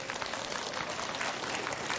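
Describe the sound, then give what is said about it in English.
Applause from women in an audience: a dense, even patter of many hands clapping at a fairly low level, with no voices standing out. “I notice all the ladies clapping.”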